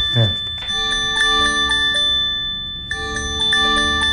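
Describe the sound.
An earthquake alert tone rings from a mobile phone: loud, steady, high electronic tones pulse in repeated chime-like beats, break off briefly partway through, then resume, with a short voice at the start.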